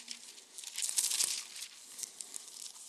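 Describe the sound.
Pages of a paper Bible being handled, a soft, quiet papery rustling and crinkling with small brushing peaks that continue throughout.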